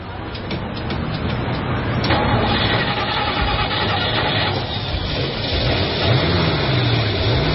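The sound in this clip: A car engine starts and then runs with a steady, fairly loud low rumble that holds level for the whole stretch.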